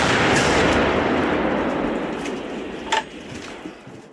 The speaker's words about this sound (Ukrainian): Ну, так трапилося, що вони попали в артилерію. А артилерія – це ж боги війни. Стріл!